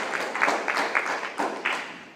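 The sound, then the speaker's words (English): A church audience claps hands in praise, a brief run of uneven hand claps that rise and fade over a couple of seconds at moderate loudness. “I want you to give God a hand clap of praise for his leadership.”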